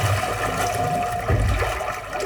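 Water Foley: continuous sloshing and trickling water with a low churning rumble, steady throughout and heard alone.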